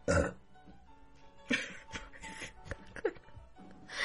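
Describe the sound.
A loud, rough burp bursts out at the start, then quieter throaty gurgles and a second shorter belch follow over faint background noise.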